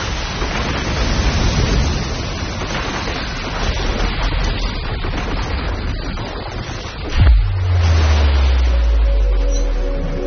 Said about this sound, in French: En quelques heures, la mer déchaînée disloque le navire.